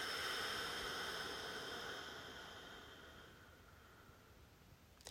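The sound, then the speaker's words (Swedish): A long, slow exhalation during a guided relaxation exercise, a faint airy hiss that gradually fades away over about five seconds, ending with a tiny click. “Och så igen. Och lång utandning.”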